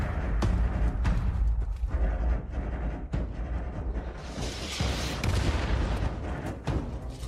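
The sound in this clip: Gunfire in a video game set in a post-apocalyptic American frontier: a few sharp, sudden bangs that stand out above a dense, continuous noisy background.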